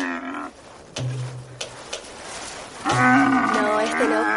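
Camels groan and bellow with a harmonic, moaning call. There is a short call at the start, a low droning grunt in the middle, and a longer, louder call near the end.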